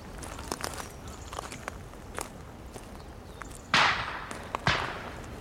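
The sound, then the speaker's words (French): Two loud, distant rifle shots crack out about a second apart, each trailing a long decaying tail, after a few fainter sharp cracks earlier on. “Je pense que c'est ce bordel-là. Des coups de carabine, des trucs.”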